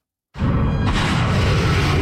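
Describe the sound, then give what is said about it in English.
American cruise missiles launching at Iranian targets burst into a sudden loud blast that becomes a heavy, steady rushing roar and holds at full strength to the end. “American cruise missiles being launched at Iranian targets.”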